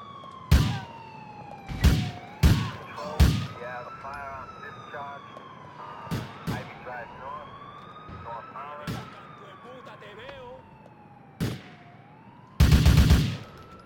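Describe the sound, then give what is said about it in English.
Police sirens in the video game GTA IV wail in a slow rising and falling sweep with quick yelping warbles, cut by many sharp gunshot cracks and a dense burst of gunfire near the end. “I, you know, I hear sirens.”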